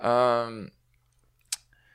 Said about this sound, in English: Clicks off microphone too. Click, click. How do I pause that?